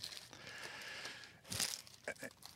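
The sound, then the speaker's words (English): Crinkling plastic as a multi-pack of Ultra Pro Black Border 130-point one-touch card holders is opened: a steady crackly rustle with a louder crunch about midway, then a few sharper crinkles. “I'm going to open my multi-pack of Black Border 130.1 touches from Ultra Pro.”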